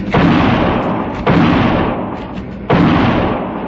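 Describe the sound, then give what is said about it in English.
Gunshots fired back during a gunfight aboard a small train rocking over uneven rails: three loud, sharp blasts, each trailing off in a long, rumbling decay. “The bullet struck a log beside my arm. I felt a splinter tear my cheek, and I fired back.”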